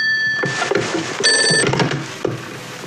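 A telephone ringing: two short bursts of bright, steady ringing tones, the second louder, over a busy background of thuds and rustling.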